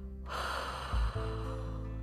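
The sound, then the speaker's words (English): A single audible exhale follows a held breath during a tightened-abdomen sit-up relaxation exercise. It is a brief, breathy, snort-like rush of air with a heavier puff near the middle, and no talk. “And inhale, hold during the sit-up, and then exhale,”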